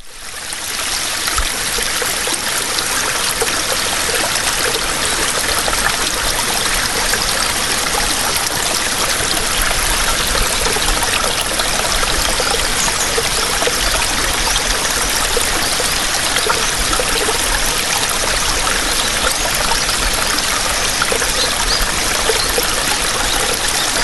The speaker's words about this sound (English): So to help soothe everyone's ears, here's the sound of a flowing creek to ease life's anxieties.